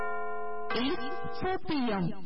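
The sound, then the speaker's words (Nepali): A radio station's time-signal chime marking four o'clock in the afternoon, a steady, sustained tone lasting under a second, followed by a voice speaking. “साहिनो समय सूचक अहिले दिउँसोको 4 बज्यो”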